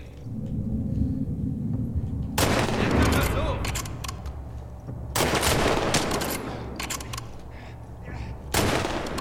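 Automatic gunfire from a shooter video game, three loud rapid bursts of shots separated by stretches of low rumbling background noise.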